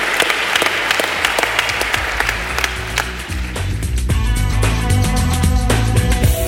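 Applause offered as a tribute, a dense and steady wash of clapping throughout, with sustained musical tones running underneath and growing more prominent toward the end.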